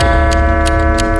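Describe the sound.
A clock ticks, linked in the talk to the clock of the South Tower, giving a few evenly spaced, crisp ticks about three per second over a steady, sustained low tone.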